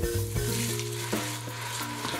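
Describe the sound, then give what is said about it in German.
Onions sweat in butter, to be deglazed with dry Riesling, sizzling in a steady, dense, loud hiss with a constant low hum and no voices. “Die Zwiebeln werden in Butter angeschwitzt und mit Wein abgelöscht.”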